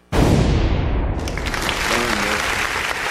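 Applause sound effect bursts in abruptly and carries on as steady, loud, dense clapping for about three seconds, with no pause or fade.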